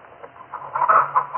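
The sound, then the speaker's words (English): Chickens kept on a farm alongside ducks, clucking softly. Several short, mid-pitched clucks come in an uneven run, growing a little louder toward the end, with no talk over them. “You see my chickens and ducks”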